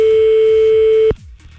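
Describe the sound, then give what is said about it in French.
An outgoing telephone call's ringing tone on a line to the Bouches-du-Rhône in France: a single steady mid-pitched beep that holds for about a second and then cuts off abruptly, over faint background sound. “On appelle Julie à l'Albaron, direction les Bouches-du-Rhône ce matin.”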